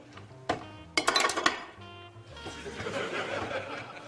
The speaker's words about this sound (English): Mix the yolk and the chocolate. Add the butter. And now for the fun, whisking.